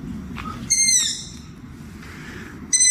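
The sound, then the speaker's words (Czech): Long-eared owls, a family of them calling at dusk, give two loud, high, harmonic squealing calls, the second starting near the end, over a steady low rumble. “Já vám ten zvuk teďkon pustím, jo? Dávejte pozor, tohle je Kalous ušatý.”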